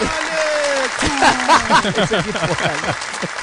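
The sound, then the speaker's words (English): Applause and whooping cheers from a studio audience welcoming a guest onto a football talk show, with excited voices rising and falling over the clapping. “Ladies and gentlemen, put your hands together for the Pretoria gunslinger”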